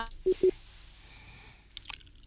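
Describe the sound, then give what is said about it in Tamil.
Call waiting tone on a telephone line: two short, low beeps in quick succession, then a quiet stretch with faint line noise. “உங்களது தொலைபேசியில் வேறு அழைப்பு வருகின்ற நினைக்கின்றேன்.”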